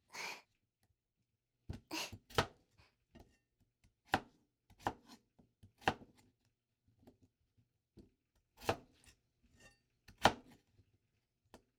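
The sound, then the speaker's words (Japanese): Knife chopping food into moderate-sized pieces while cooking in a home kitchen: many sharp, irregularly spaced cuts, some louder than others, with quiet pauses between and no talk. “あまり大きく切りすぎると火が通るのに時間がかかるから、適度な大きさで切っていかないとね。”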